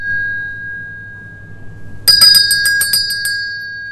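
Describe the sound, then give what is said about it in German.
Dinner bell ringing on Tenerife: a quick run of many bright metallic strikes in a rapid, slightly uneven rhythm. It bursts in loudly and rings for just over a second. “Richtig! Es ist die lang ersehnte und allerseits beliebte Essensglocke.”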